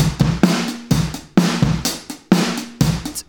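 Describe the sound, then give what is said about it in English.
Drum beat of kick, snare and hi-hat processed with heavy compression timed to a sixteenth-note release. Punchy hits keep a full, sustained body, and the hi-hat pokes through between them in a steady repeating groove, with no voices. “But compressing with essentially a 16th note timed release sounds like this.”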